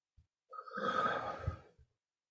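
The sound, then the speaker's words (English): A big deep breath drawn in during a guided tapping exercise, heard as a single soft, breathy rush lasting about a second. “Nice big deep breath in the side of the hand.”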